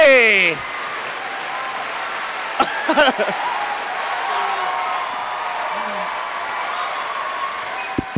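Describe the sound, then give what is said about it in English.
Audience applause in a standing ovation for a guest introduction, dense continuous clapping and cheering that holds at an even level throughout. “That might be the first time I've seen a standing audience stand up more for a standing ovation. There were people jumping to get higher.”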